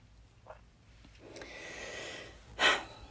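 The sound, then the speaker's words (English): A person takes one sharp, loud breath near the end, a brief rush of air after a quieter stretch of soft breathing noise. “I need a breath.”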